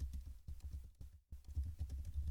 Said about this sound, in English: Give me a second. Let me find it. Sorry for talking while I type.